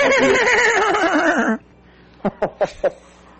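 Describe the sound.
A horse whinny sound effect: a loud, wavering neigh lasting about a second and a half, followed by four short, sharp knocks.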